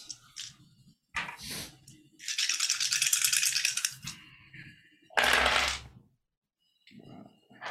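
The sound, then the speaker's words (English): Dice are gathered and rattled during a tabletop game. Several bursts of clattering come separated by short pauses and soft clicks, including one long sustained shake and a loud final rattle. “Go ahead and roll it. I'm gathering dice.”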